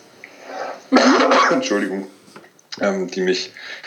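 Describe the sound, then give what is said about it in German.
A person coughs in two rough, raspy bouts separated by a short pause, the first longer and louder, with a throaty, throat-clearing edge. “Jetzt kommt der Husten. Ja, huste mal in Ruhe, das schneide ich raus”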